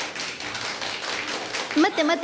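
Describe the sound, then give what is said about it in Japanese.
People in a room clapping during a tasting of a sweet red bean paste treat; a ragged series of light hand claps under chatter, with a voice rising clearly near the end. “待って何の拍手を今ちょっと待って ベニヤさんへの 今何の拍手なのこれ”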